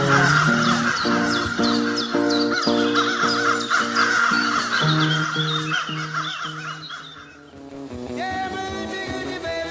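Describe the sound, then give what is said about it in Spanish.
A human voice mimics a crow, giving many rough, repeated caws over steady sustained tones that continue throughout and shift near the end. “¿A que me sale bien el sonido del cuervo de fondo?”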